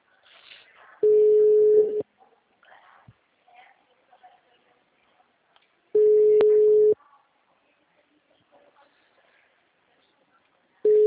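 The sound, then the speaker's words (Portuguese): A telephone ringback tone plays while a call is being placed: two steady, even-pitched tones lasting about a second each, separated by a long gap with only faint low sounds, then a third tone beginning at the end. “Estoy ligando. Tá aqui, ó.”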